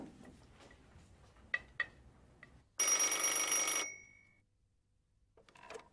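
A telephone rings while a call is being placed: a single bright, buzzy ring lasting about a second that cuts off sharply. Faint clicks come before it and soft sounds follow.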